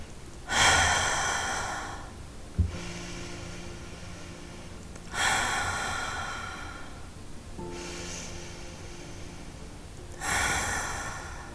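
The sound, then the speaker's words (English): Three deep cleansing breaths during a meditation practice. Each begins with a loud, airy inhale and eases into a long, slow, fading exhale, with quiet gaps between them and no talking. “To wrap up this practice, we'll take some deep cleansing breaths together.”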